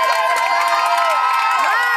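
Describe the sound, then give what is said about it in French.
A crowd cheers on a team at an archery contest, with many voices whooping and shouting together, some high-pitched, in a loud, continuous roar. “Vous avez vu quand vous êtes acclamé? On est les winners. On est au tir à l'arc en fait.”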